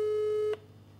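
Telephone ringing tone heard while calling a friend: a single steady mid-pitched tone that cuts off abruptly after about half a second, leaving only faint background hiss.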